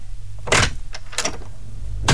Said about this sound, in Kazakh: Двери Ситидің сенімді әрі сапалы есіктері сіздің жайлылығыңыз бен үйіңіздің қауіпсіздігіне арналады.